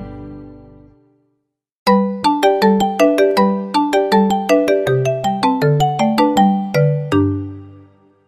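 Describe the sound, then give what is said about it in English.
Telephone ringtone: a short low sustained tone, a second of silence, then many bright chiming notes in a quick, bouncing melodic pattern that ends on a longer held note. “Telephone, telephone. I talk on the telephone. Telephone, telephone.”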